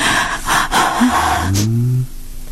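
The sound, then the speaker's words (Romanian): A person breathing out deeply: a long, steady, breathy rush of air that lasts about two seconds, then fades to a quieter background. “Expiră. Respiră. Expiră. Așa.”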